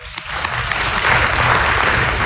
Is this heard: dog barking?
no